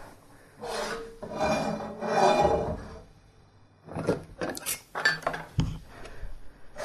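An onion is scraped into a cooking pot: two rasping scrapes come first, then a scatter of sharper clinks and knocks from the utensil against the pot.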